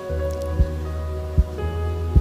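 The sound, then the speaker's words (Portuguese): Three soft, evenly spaced taps of two fingers against the palm at a prayer gathering, sounding over a steady low hum. “Eu queria que eu e você fizéssemos algo muito simples. Se você puder pegar seus dois dedos e começar a bater assim comigo, vamos lá.”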